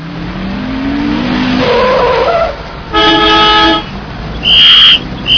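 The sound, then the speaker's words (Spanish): Car horns honk at a driver who has run a red light on a Madrid street. A rising whine leads into a long, blaring honk, followed by a shorter, high-pitched toot. “Pero es que no ve usted el semáforo en rojo y que además le están pitando.”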